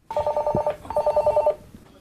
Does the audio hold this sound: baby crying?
no